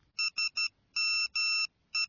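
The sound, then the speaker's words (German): Mobile phone text message alert: bright, high electronic tones with no talk, three short ones, then two longer ones, then a further short tone at the end. “Warte mal. Ich bekomme gerade eine SMS auf mein Handy. Jemand hat mir gerade getextet.”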